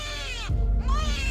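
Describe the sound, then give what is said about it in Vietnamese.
A baby in a basket on water cries shrilly in a high, wavering wail with bending pitch, broken midway by a short, louder low rumble. “Đứa bé ở trong thúng lúc này bỗng nhiên khóc ré lên, âm thanh như xé vải.”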